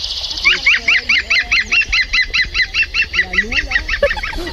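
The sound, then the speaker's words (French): Laughing call of a woodpecker played from a portable loudspeaker during a walk in a park, a long, fast run of many sharp, even-spaced repeated notes, loud and steady, with faint low sounds beneath. “Ça, c'est le chant du pivert. Donc si un jour, vous entendez un oiseau qui rigole, c'est le pivert.”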